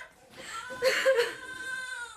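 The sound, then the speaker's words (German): A baby crying upstairs in a nightmare scene of a German radio drama: a faint, muffled wavering wail with a brief swell in the middle, then fading into a thin, tremulous cry. “Wo ist mein Baby? Doch, hören Sie da oben, es weint, hören Sie. Es weint doch, hören Sie doch mal.”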